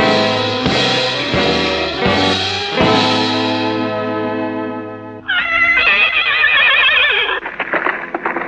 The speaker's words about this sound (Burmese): ဟောသူတို့မြင်းနဲ့ထွက်သွားကြပြီထွက်သွားကြပြီ